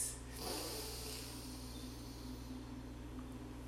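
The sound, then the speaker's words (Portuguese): A single soft breath drawn in through the nose during a guided breathing exercise. It is short and faint at the start and gives way to a steady low hum. “inspira o ar pelo nariz”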